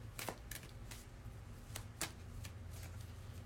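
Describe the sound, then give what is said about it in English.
Tarot cards being shuffled: a quiet, continuous papery rustle broken by many soft slaps and riffles at an uneven rhythm. “just shuffling the cards so we can see what we need to know about the crown chakra this week”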